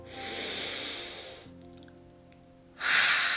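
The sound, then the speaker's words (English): A deep breath taken together during a guided relaxation: a long, airy breath in, a short lull, then a louder, forceful breath out. “Before we dive in, let's take a deep breath together.”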